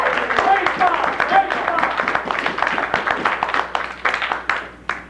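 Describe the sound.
Audience applause for a performer at a live comedy show: dense, continuous clapping that stays fairly loud throughout, with voices and cheering mixed in.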